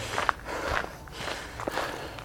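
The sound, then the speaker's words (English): Footsteps of a person running, a faint, steady patter of soft rhythmic footfalls over low background noise. “Whew, I think I'm running too fast.”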